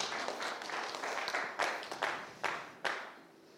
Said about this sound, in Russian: Дайте им аплодисменты. Dodiet viņiem aplausus.